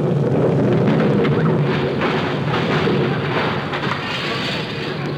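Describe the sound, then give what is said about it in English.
A time bomb explodes in a loud, sustained roaring rumble that holds steady for several seconds and eases off only slightly toward the end. “Oh, darn it. There goes that time bomb. I must have said it a little too early.”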